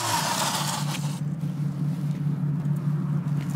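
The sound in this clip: Artificial motor sound from an electric bike rated at 15 PS: a steady, low synthetic drone that holds an even pitch throughout, with a brighter hiss over it in the first second.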